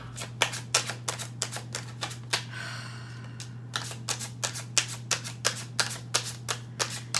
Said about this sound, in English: It's almost like I'll show you the cards. Let me show you the cards. Let me finish the shuffle.